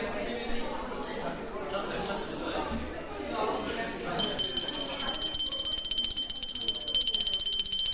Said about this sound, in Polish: O, to działa. Dzwoneczek. Przerwa się skończyła, zaczynamy lekcję.